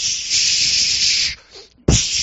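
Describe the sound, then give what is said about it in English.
A voice imitates wasp spray being sprayed into a nest. It makes a long, loud, breathy hissing 'psh', then, after a brief pause, a second sharp hiss. “psh, psh, just going for it, spraying this wasp spray in there.”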